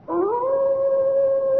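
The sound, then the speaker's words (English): A hound howls on the moor in one long, eerie cry that rises in pitch at the start, then holds a steady, sustained tone with no other sounds. “It's some sound they have on the moor, I think. Don't coddle me, Watson. When the people of the moor hear that cry, what do they say it is? They say it's the cry of the Hound of the Baskervilles, seeking its prey.”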